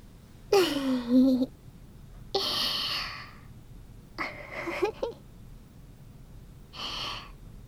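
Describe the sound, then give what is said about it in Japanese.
A big, drawn-out human yawn, heard as four breathy, voiced bursts separated by pauses. The first is the loudest and has a falling, groaning pitch, and the later ones are softer airy exhalations. “大きな大きなあくびさん。”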